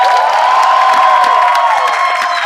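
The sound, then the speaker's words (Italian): Live audience cheering and applauding after a presentation at a live game show, a dense, steady crowd roar with scattered whoops that runs unbroken throughout. “Un applauso per la presentazione di Lorro.”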